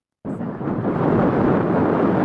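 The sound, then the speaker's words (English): Wind blows dust across dry paddocks in Charleville, southwest Queensland. A loud, roaring, buffeting rush bursts in abruptly after a moment of silence and then holds steady and dense to the end. “As the wind blows the dust across the paddocks of Charleville in southwest Queensland, there's not much pasture to speak of.”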